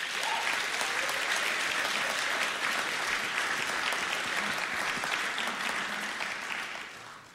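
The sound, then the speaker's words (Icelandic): An audience claps for an honoree at an award presentation: full, steady applause that carries evenly before trailing off at the end. “Það er að klappa fyrir Jóhann G.”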